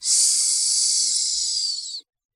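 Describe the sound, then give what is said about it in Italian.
A person hisses as a signal in reply: one loud, sustained, breathy hiss that holds steady for about two seconds and then cuts off abruptly, with nothing else heard. “mi affrettai a rispondere col solito sibilo.”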